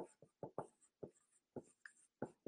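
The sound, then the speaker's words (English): Handwriting strokes in a quick, irregular run of short scratchy bursts, each a crisp brush of friction, fairly faint with clear pauses between them and no voices. “So I'll write that right here so that you guys know English.”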